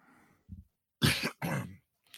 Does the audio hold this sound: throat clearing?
yes